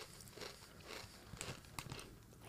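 Faint crunching on seasoned potato chips: a few soft, crisp bites and crackles in quick, uneven succession, with no talk over them.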